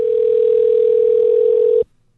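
A telephone dial tone sounds while a phone call is being placed: one loud, steady, unbroken tone that holds for almost two seconds, then stops abruptly.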